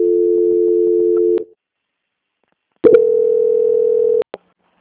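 Telephone call-transfer tone on a bank phone call being passed to quality control: two long, steady low tones separated by silence, ending in a short click, with no voices.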